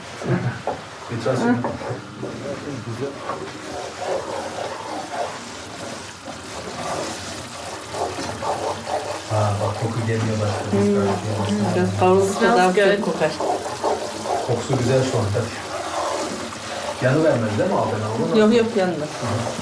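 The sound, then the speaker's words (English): Turkish helva sizzles in oil as it is mixed with milk and grape molasses in a kitchen, a continuous hissing fry under people talking, with occasional knocks and scraping from stirring. “oil and then mixed with milk and grape molasses. I hear it sizzle.”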